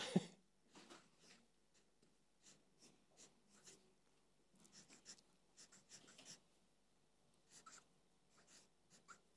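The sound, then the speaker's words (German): A pen writes on paper with faint, scratchy strokes. Many soft bursts of scraping come in an irregular rhythm, each brief and quiet. “Jetzt haben wir vergeben. Guter Moment zum Lüften, wenn ich das schreibe.”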